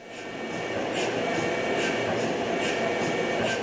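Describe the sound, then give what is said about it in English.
A quieter GE Healthcare MRI machine runs with a steady, even whooshing hum, and faint soft ticks recur at regular intervals over the constant noise. “Waukesha-based GE Healthcare, has now developed essentially a less noisy MRI machine, one that sounds like this.”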